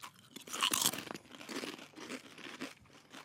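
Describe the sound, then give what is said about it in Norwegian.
Faint, crisp crunching of salt and apple-cider vinegar potato chips being bitten and chewed, with many irregular crackly crunches running throughout, with no talking. “Jeg syns vi skal ta en uh, smak, og eh, rate den salte og eplekjekk-eddiken.”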